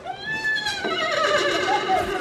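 A person vocally imitates a rearing pony's whinny: a loud, wavering, high-pitched cry that runs unbroken for about two seconds.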